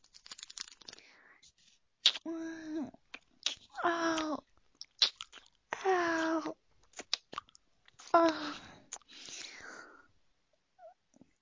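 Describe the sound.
A lollipop being chewed and eaten: wet mouth clicks and smacking sounds, broken up by a few drawn-out voiced sounds.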